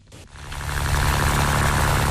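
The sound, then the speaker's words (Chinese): A fishing boat's motor starts up in a harbour at Yazhou central fishing port in Sanya, swelling within a second into a loud, steady, humming drone that holds to the end. “三亚崖州中心渔港内，马达声响起。”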